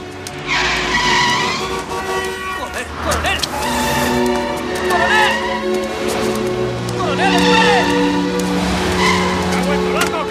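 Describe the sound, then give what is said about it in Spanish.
Cars speed past on Park Avenue with tires skidding: engines roar without a break while many sharp tire squeals rise and fall over the traffic noise. “Con gesto desesperado, Frank se lanza a la calzada. Los coches le pasan rozando.”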